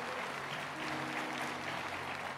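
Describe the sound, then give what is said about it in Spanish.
Faint, dense applause from a church audience praising the Lord during a sermon, a soft, even wash of clapping that holds steady throughout. “sí, eso vale aplaudírselo al Señor.”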